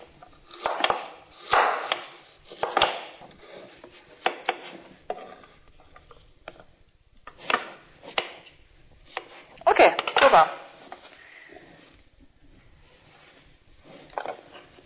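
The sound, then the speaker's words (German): Knife chopping potatoes and carrots into thumb-thick pieces, heard as several short bursts of dull, quick thuds on a board separated by quiet pauses. “Wir haben also den Kohl klein geschnitten und sind dabei noch die Kartoffel und die Karotten in ungefähr Daumendicke zu schneiden.”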